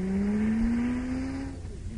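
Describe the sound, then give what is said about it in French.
A Toyota car engine hums with a steady tone that climbs gently in pitch, then eases off and quietens toward the end. “Et ça, c'est une Toyota.”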